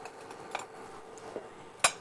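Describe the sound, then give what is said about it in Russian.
Faint metal clinks and scrapes on a frying pan as it is greased with a little oil while cooking, with a few light taps and one sharper clink near the end. “И теперь мы сковородочку, буквально смазываем немножечко маслицем.”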